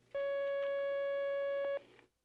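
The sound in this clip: A single steady telephone line tone as a phone call connects, held for about one and a half seconds: a clear mid-pitched electronic hum with bright overtones, heard alone with no voices before it cuts off.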